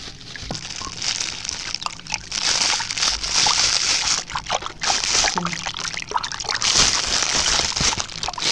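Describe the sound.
Water splashing and sloshing as someone swims, a steady, dense wash of noise with frequent small splashy bursts throughout, no talk.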